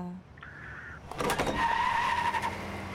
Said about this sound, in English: Hey, get in! What? You have to, Conan, because I'm busy driving.